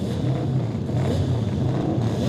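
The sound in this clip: Racing motorcycles passing on a track during a session, a steady, loud engine drone that holds without a break.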